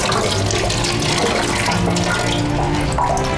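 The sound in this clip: Tap water runs as a mother washes a child's hands at a sink. The flow is a continuous, even splashing rush with no pauses.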